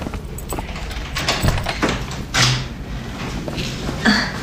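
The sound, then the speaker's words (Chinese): A key unlocking and opening the door of a long-unused broadcast room: a few scattered clicks, knocks and rattles over steady background noise. “广播室的钥匙有吧？ 啊，我有。 啊，来，把它打开。”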